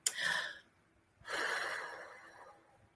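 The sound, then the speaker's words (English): A person takes a deep breath, faint and airy: a short inhale, a pause, then a longer, drawn-out breath that slowly fades, with no talking. “take a nice deep breath for me”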